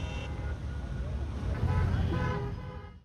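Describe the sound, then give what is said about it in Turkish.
Car horns honk amid the noise of a street celebration convoy in Damascus, with voices and traffic in a dense, continuous hubbub. “Sokaklarda konvoy oluşturuldu. Kornalar çalındı.”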